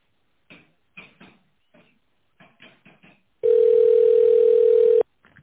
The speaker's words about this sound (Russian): Оставайтесь на линии. Ваш звонок будет переадресован на оператора.